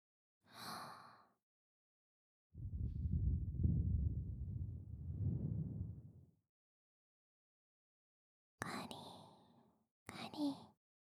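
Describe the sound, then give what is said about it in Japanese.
One long, soft breath blown out for a few seconds, whooshing and low, set between brief quiet vocal sounds before and after it. “一度、息を吹きかけますね。”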